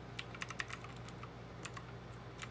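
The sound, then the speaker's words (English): Keys pressed on a computer keyboard make a quick run of faint, light clicks in an irregular typing rhythm, with a soft steady hum underneath. “you'll see as I press keys, we get the event number being listed there.”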